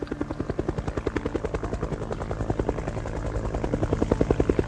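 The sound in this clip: Helicopter rotor chop from the race organisation's helicopter filming the 1992 Vendée Globe sailing race start pulses in a fast, steady rhythm throughout, growing somewhat louder toward the end.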